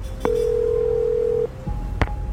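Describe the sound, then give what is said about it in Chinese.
A single long, steady mid-pitched ringing tone from an outgoing phone call, lasting just over a second over a hissy background, followed by a sharp click. “许岩想也没想就给沈直打了电话，”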